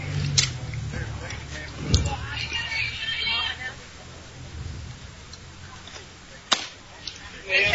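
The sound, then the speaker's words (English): A baseball pitch pops into the catcher's glove during a game, giving a few sharp smacks over a steady crowd murmur. “Next pitch by Harris, you could hear it hit the glove of the catcher.”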